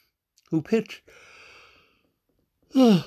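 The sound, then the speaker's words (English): A man's drawn-out, breathy yawn with faint voicing sits between short stretches of his talk. “I'm sorry for yawning so much. I start doing a podcast and I start to yawn or cough, either or.”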